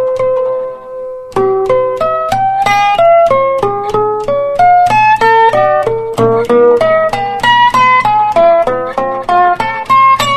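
Slide guitar artificial harmonics, played with a bottleneck from the 5th fret and the harmonic sounded over the 17th fret, climbing chromatically across the 4th to 1st strings. Many clear, bell-like plucked notes follow in a steady rhythm, cycling across strings and gradually rising.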